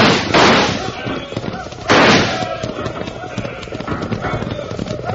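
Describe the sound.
Horses galloping in a gunfight, with steady, rapid hoofbeats throughout and two loud bursts of gunfire near the start, while people talk over the action.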